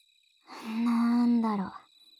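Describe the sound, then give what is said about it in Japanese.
Bell crickets give a steady, faint, high-pitched ringing trill that runs throughout. A brief voiced sound rises over it in the middle. “兄貴と虫の音を聞いてると、懐かしい気持ちにもなるね。”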